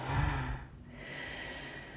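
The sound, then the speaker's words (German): A forceful snort out through the nose during a breathing exercise: a loud burst of air that fades into a long, steady, airy exhale. “Weite bis in die Schultern. Schnaube.”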